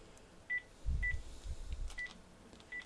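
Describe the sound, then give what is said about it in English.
Telephone keypad dialing tones play on a speakerphone as a few short, faint, steady beeps separated by pauses, with soft low thumps partway through. “This is dialing 150. That's the support number.”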